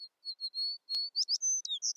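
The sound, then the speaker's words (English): An American tree sparrow, a small brown sparrow, calls in a run of thin, high whistled notes and quick chirps, clear and fairly faint, with brief gaps between phrases and no other sound. “Though American tree sparrows are common in North America, their populations have steeply declined since the 1970s.”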